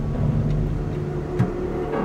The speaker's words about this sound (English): The motor works, but it's not moving yet. I think there's something stuck in the chain with catch and release.